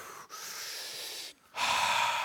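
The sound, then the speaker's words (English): A deep breath: a long, steady rush of air, then a short pause and a louder, fuller breath that carries to the end. No voices are heard. “Take a deep breath.”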